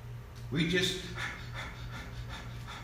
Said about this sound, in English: We just pant.